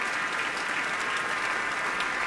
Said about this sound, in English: the members of the orchestra are seated and they are clapping, letting him soak it in all by himself.